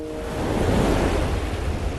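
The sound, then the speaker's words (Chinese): Wind rising by Qinghai Lake, a loud, continuous rushing roar that builds in the first moments and then holds steady, its broad texture close to the wash of surf. “起风了，赶紧撤。”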